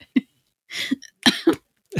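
Coughing from someone choking on a drink: a few harsh, throaty bursts come in quick succession, one short hack followed by longer rasping fits, separated by brief silences.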